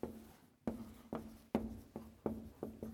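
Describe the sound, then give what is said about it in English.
Someone writes on a board in front of an audience, making a quiet run of sharp, scratchy strokes in an uneven rhythm over a steady low hum. “Strange things happen when you're writing on the board in public.”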